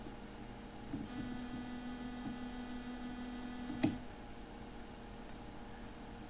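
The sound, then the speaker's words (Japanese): Faint steady C note test tone played at 20 decibels, sustained for about three seconds over a low mains hum and ending with a brief click. “今、聞こえてきた C の音ですね、 ドの音ですけども、これが20デシベルの音だそうです。”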